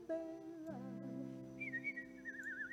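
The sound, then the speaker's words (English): A person whistles in imitation of a bird: a faint, high, warbling trill with quick wavering pitch, heard after a lower, steadier tone. “That was a really good whistle. Bird whistle. That whistle was good.”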